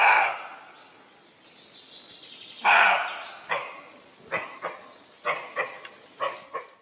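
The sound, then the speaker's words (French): Roe deer barking cries, a series of dry, hoarse, dog-like barks at irregular intervals, several in quick pairs, each short and sharp against a quiet background. “c'était un chevreuil. Ah mince, j'étais sûre. Le cri du chevreuil ressemble un peu à celui du chien, mais il est plus sec et plus rauque.”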